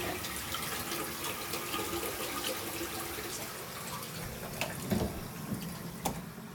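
A toilet flushes on its own, a steady rush of flowing water lasting several seconds and swelling slightly near the end.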